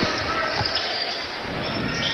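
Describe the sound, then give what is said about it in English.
A basketball is dribbled on the court at a high school game, a few dull bounces under steady background noise. “Dribbled back and forth across the three-point line.”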